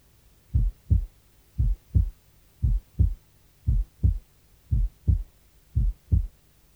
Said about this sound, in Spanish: Base derecha, segundo ruido único.